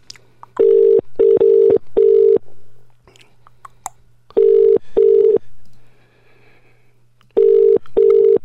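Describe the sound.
A phone call to a mobile on the EE network ringing out before reaching voicemail: loud, steady electronic ringing tones come in short on-off bursts grouped in twos and threes, separated by quiet gaps.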